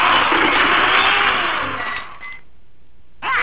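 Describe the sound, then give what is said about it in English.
Escalator drive motor that pulls the step chain and handrail, running with a steady, loud mechanical whir and clatter that dips quieter briefly near the end before picking back up. “now here's the motor that pulls the chain, and the chain pulls the steps and the handrail”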